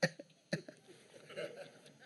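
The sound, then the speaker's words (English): Fake coughing from a man: two sharp, harsh bursts about half a second apart, followed by a couple of fainter trailing sounds. “came out of the bedroom faking a cough”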